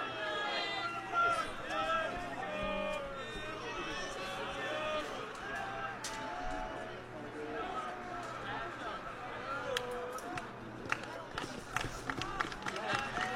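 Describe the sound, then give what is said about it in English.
Players in the visitors' dugout shout and chatter during a James Clemens vs. Athens baseball game, a continuous mix of overlapping raised voices. “You can kind of hear all the noise. That tends to be from the visitor dugout.”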